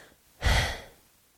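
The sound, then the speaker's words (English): A single wheezing breath, a short breathy burst that swells sharply and then trails away within about half a second, alone and fairly faint. “Why am I wheezing?”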